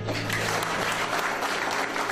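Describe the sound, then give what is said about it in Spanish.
Audience applause welcoming a guest: a dense, steady wash of many hands clapping that holds at an even level throughout, with no pauses or clear peaks. “el doctor Sheikh Suhail Azad, a quien le vamos a dar una cordial y calurosa bienvenida con fuertes palmas”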